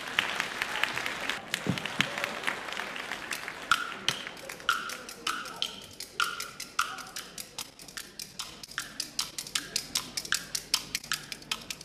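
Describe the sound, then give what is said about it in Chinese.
Audience applause at a stage show ahead of a kuaiban clapper-talk act: dense clapping that thins out and gives way to sharp, regularly spaced clicks. “咱们掌声有请。”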